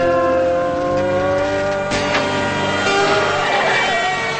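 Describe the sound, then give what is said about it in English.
Tires squealing as a pickup truck careens into a ditch: a loud, sustained wailing screech with shifting tones and a brief sharp burst near the middle. “The pickup careens into a ditch and hits a tree.”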